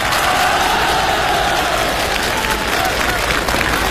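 Loud, sustained applause from a live audience at a comedy sketch performance, dense steady clapping that fills the whole stretch without a break.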